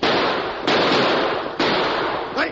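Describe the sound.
Pistol gunshots in a Western shootout on horseback: a few sharp, loud cracks spaced about a second apart, each followed by a sustained wash of noise, with no voices heard.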